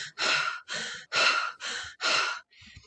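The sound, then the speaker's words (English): Deep, forceful breaths of holotropic breathwork through nose or mouth: five loud, airy breaths in a steady rhythm with short pauses between them, then a sixth, fainter breath at the end. “So it might be like a big inhale and exhale.”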